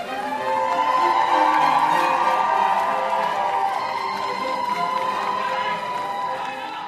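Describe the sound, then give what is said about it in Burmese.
A crowd cheers for Prince Harry and Meghan Markle as the royal bride and groom leave their wedding at Windsor: a continuous loud roar of many voices that holds steady and eases slightly toward the end. “မင်္ဂလာဆောင်ပြီးတော့ထွက်လာတဲ့သတို့သားနဲ့သတို့သမီးကိုပရိသတ်တွေကလည်းဝမ်းသာအားရအဟစ်ပြီးတော့ကြိုဆိုခဲ့ကြပါဗျ။”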